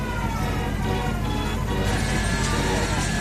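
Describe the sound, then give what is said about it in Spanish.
Fairground rides at a summer town fair make a dense, continuous mechanical din. Steady whining, siren-like tones sit over it, loud throughout with no pauses. “Bueno, este es el sonido de las ferias de verano, de sus cacharritos, que recorren las fiestas de pueblos y ciudades.”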